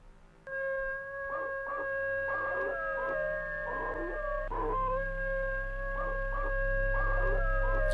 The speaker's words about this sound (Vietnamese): Đột nhiên con chó mực ở ngoài sân, nó chu dài lên một tiếng, sau đó rồi sủa lên inh ỏi.